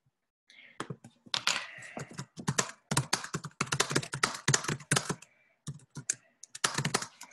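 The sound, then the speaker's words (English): Typing on a computer keyboard: rapid, irregular keystrokes come in dense bursts separated by short pauses, crisp and close, with no talking. “And I will just type this in here.”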